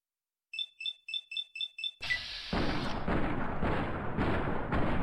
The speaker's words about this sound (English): Oh, submachine gun. No wonder he was hurting me so bad.